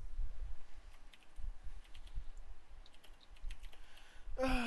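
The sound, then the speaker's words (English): Faint typing on a computer keyboard: scattered soft clicks over a low steady hum, ending in a short louder burst. “if you hear any sound effects in the background, a TikTok or whatever, that's me at the keyboard.”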